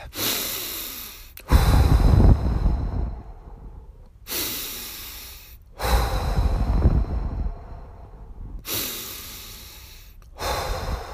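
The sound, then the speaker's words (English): A few deep breaths taken slowly and alone, each a quiet inhale followed by a long, loud, rushing exhale, in a steady, unhurried rhythm. “I'm going to take a few deep breaths.”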